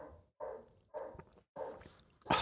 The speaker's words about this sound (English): The dog. Sorry about the dog.